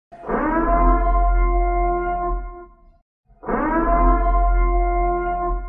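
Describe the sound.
Siren sound effect: two long, loud droning blasts, rich in harmonics, each swelling in quickly and holding steady for a few seconds, separated by a brief silence, with no voices.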